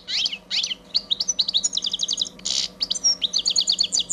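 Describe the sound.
Bird song plays from the built-in speaker of a push-button device that voices birds such as great tits and goldfinches: many rapid, high twittering chirps and trills in quick runs, bright and continuous with no talking.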